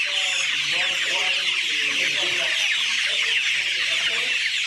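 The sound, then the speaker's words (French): Day-old chicks peep in a dense, shrill chorus in a hatchery after being taken from the incubator machine. The high chirping is constant and loud, and a voice talks beneath it. “Les poussins ici, après extraction de la machine, nous les amenons dans l'atelier de la vaccination.”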